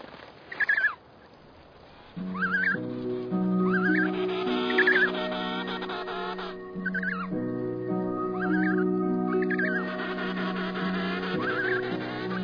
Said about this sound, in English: The returning fathers will circle the excited newborns and listen until he hears his chicks call.